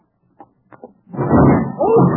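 A door falling onto someone: a few light knocks, then a loud, heavy crash that rumbles on until the end.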